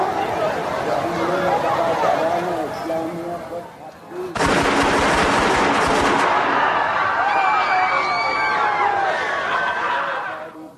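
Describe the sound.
Gunfire in a film scene where soldiers shoot: a sudden loud burst of rapid shots erupts partway through, after voices, followed by continued heavy noise with voices.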